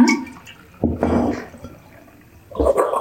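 Sour water kefir being poured into a bottle during a second fermentation, two short bursts of splashing, gurgling liquid separated by a quieter pause.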